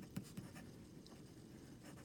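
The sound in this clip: A pen scratching across rough, not very smooth paper, a faint continuous scraping with two small ticks near the start and no voices.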